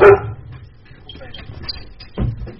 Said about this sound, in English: And the dog loves Mike Austin too. He's letting us all know.